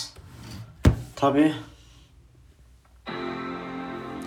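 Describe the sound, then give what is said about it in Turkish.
A MacBook laptop lid being opened: a sharp thump, then a short rubbing scrape, and after a quiet pause a steady sustained tone begins. “tabii bu arada sesi duydunuz. MacBook'u yeni açıyorum.”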